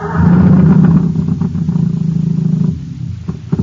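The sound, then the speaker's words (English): An old motor running on ordinary fuel gives a rough, clattering, low-pitched engine rumble that stays loud and steady, then eases slightly toward the end. “Poor old motor. It's got nothing to go on but ordinary fuel.”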